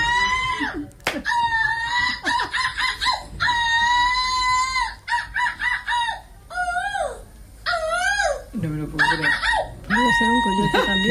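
A woman imitates seagull squawks in a gull-call contest performance in Belgium: many loud, shrill, harmonic cries in rapid bursts with short gaps, some bending up and down in pitch.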